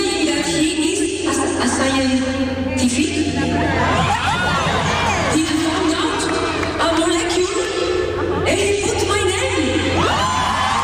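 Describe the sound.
A concert audience in Boston fills the air with loud, continuous crowd noise. Cheers, whoops and shouting voices overlap throughout without letting up.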